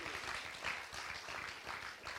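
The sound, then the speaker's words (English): Hands clapping from a church audience during a morning worship service form a soft, sustained patter of many claps with gentle swells in loudness and no voices on top. “I think God deserves a hand clap this morning.”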